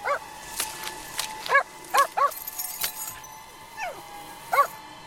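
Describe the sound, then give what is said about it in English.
A dog barks up at its owner amid a traffic jam on a parkside road. It gives several sharp, high barks at irregular intervals over a steady hum, with a few short clicks between them. “The dog barks up at its entranced owner.”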